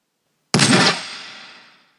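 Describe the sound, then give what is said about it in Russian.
A single gunshot sound effect in a StarCraft military science-fiction audiobook: one sharp, loud blast with a long fading tail of about a second and a half, heard alone. “Раздался выстрел.”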